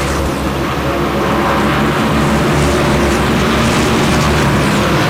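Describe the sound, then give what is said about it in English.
NASCAR stock cars race at Dover Motor Speedway during the All-Star Race, a continuous, loud engine roar that holds steady throughout with no distinct single pass standing out. “Here at the Dover Motor Speedway, the Monster Mile, the NASCAR All-Star Race. Segment number two underway, 44 laps complete.”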